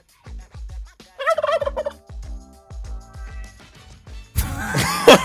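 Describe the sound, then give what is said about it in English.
Turkey gobbling, a rapid warbling burst early on and a second louder, rougher gobble at the end, set against a steady, thumping bass beat. “Tell us when and where you heard the turkey sound”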